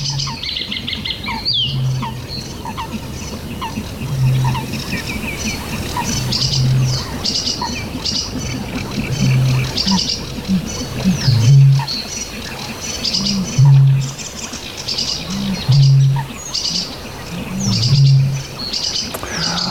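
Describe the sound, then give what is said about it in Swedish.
A sedge warbler sings in rapid, chattering, varied phrases of chirps and trills. Beneath the song, a low, deep note pulses at regular intervals. “Inte så olik den här sävsångaren som vi hör nu.”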